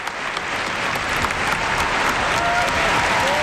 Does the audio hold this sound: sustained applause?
yes